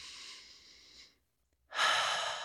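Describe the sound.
A deep breath: two soft, airy, breathy sounds separated by a short silence, the second one louder and fuller than the first, with no talking.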